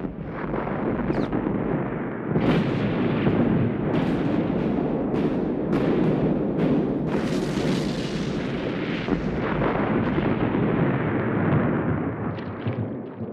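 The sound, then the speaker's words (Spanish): Artillery bombardment in the First World War Battle of Verdun: a loud, dense, unbroken roar of explosions, with many sharper blasts bursting through throughout. “bombardeo en Verdún es interminable.”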